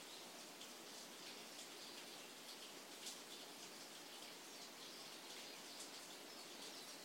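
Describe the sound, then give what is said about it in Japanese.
Steady morning rain falls in Kyoto, an even, unbroken hiss of drops with no pauses, and a few faint bird chirps rise over the wash of water. “今京都の朝は雨が降っていて、雨の音が聞こえる。鳥の声も聞こえる。”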